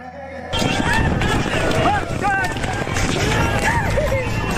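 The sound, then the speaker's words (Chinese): Galloping horses drum their hoofbeats across the Zoige grassland in midsummer. A quieter lead-in gives way to a dense, continuous, loud rumble of pounding hooves that holds steady to the end. “盛夏七月，若尔盖草原迎来了一年中最为炽烈的时节，骏马竞相驰骋，阵阵马蹄声回荡在草原深处”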